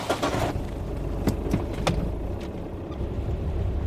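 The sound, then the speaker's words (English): Car driving along a gravel road toward Fitzroy on Aotea: steady low rumble of engine and tyres with crunching grit and a few sharp ticks, no voices. “As Carlina and the other workers head up the track, we're driving back along the gravel road to Tū Mai Taonga's office at Fitzroy”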